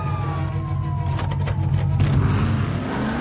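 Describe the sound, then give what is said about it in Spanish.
A car engine accelerates to follow a diplomat's convoy during a film car chase, a loud, steady roar. A siren wails, and a tone falls gradually in pitch. “Acelera y sigue al convoy.”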